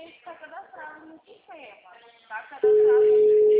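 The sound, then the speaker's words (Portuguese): A telephone busy tone cuts in after a stretch of talking and holds one unbroken pitch at a steady, loud level for about a second, until the end. “Tô ligando, mas só chama. O número está ocupado.”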